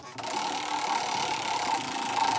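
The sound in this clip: A prize wheel spinning in a number-picking game gives a steady, busy mechanical whir with fine rattling clicks, holding an even level throughout.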